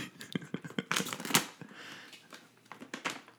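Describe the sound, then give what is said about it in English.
Tearing open a package by hand makes papery crinkling and ripping, a string of quick rough bursts that crowd together into a louder tearing stretch near the middle, then thin out into scattered crackles. “No, don't cut it. Just tear. There are a little tear. Here, you can tear it.”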